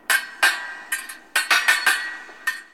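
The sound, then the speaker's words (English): Bright metallic clinks of fencing swords clashing in a sword-fighting bout, struck in an irregular series of sharp, ringing hits with short gaps and a quick cluster in the middle, no voices. “So, what's that sound? Fencing! Fencing is a sword fighting sport.”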